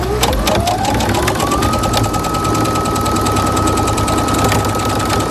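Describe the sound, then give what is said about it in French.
A sewing machine runs in a boutique workshop in Coulanges-sur-Yonne, its motor whine rising in pitch over the first second or so and then holding steady beneath a rapid, even mechanical clatter, with no talking. “Ça, c'est le bruit de la machine à coudre”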